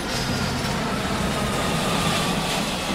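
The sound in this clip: An airplane taking off, heard as a loud continuous engine roar with a deep rumbling base that stays steady and unbroken for the whole span, with no voices.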